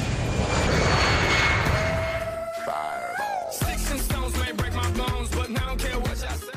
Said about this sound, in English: Flight 101, you're cleared for takeoff.